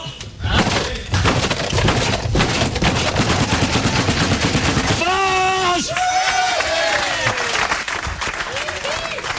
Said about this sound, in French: Alors ça c'est une tradition anglaise qu'on a dans tout le groupe. On frappe sur la table, ça s'appelle boucher. C'est-à-dire vous avez gagné, vous êtes le meilleur, etc.